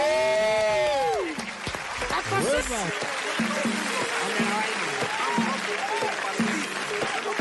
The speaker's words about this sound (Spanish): Ay, y se sigue poniendo además porristas ahí de grabaciones.